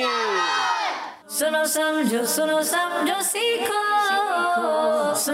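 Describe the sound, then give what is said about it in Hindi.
A crowd of voices chanting the slogan Dawat-e-Islami together, loud and rhythmic, after a single voice with falling pitch opens the call. “नारा लगाना है दावत इस्लामी”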